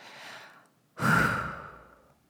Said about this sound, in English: So let's take a deep breath together and give each other courage.